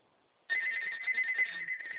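A mobile phone ringtone starts abruptly after a short silence and continues as a steady, bright, high electronic ringing with a slight pulsing warble. It stays loud and unbroken to the end, with no voices.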